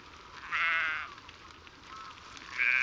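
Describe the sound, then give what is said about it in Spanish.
A flock of sheep without bells bleats on a muddy path in fog: two clear bleats, the second cut short at the end, over a low, steady rustling background. “Es un pisoteo sordo, sin voces, hasta que un balido nos da la clave.”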